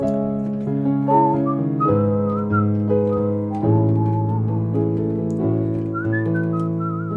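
A person whistles a melody in clear, high, sliding phrases over steady, sustained low chords. The tune runs continuously at an even loudness.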